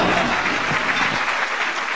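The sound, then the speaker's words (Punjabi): Audience applause: a dense, steady clatter of many hands clapping that holds at an even level and thins slightly toward the end. “ਮਾਰੋ ਤਾੜੀਆਂ ਜੇ ਗੱਲ ਜੱਚ ਗਈ ਏ, ਦਿਓ ਸ਼ਾਬਾਸ਼ ਵਾਹ ਵਾਹ ਕਰਕੇ”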